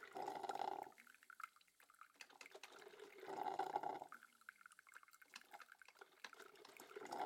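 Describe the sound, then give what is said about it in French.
Gurgling, sputtering water as a coffee machine noisily draws up its last drops. It comes in a few loud surges with quieter hissing and dripping between them, and no voices are heard. “Tandis que l'on entend les dernières gouttes d'eau se faire bruyamment aspirer par la machine”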